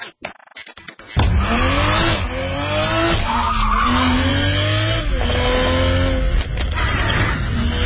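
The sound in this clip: Tires squeal loudly and continuously on a new Toyota Supra sports car, a sustained screech over a steady engine drone after a few short opening bursts.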